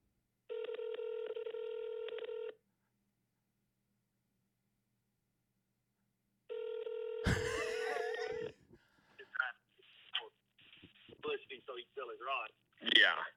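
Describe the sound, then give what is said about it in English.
Ringback tone of an outgoing telephone call: two long, steady electronic rings separated by a silent gap, followed by a sudden burst and then people talking. “Two rings. He's going to totally send me a voicemail, isn't he?”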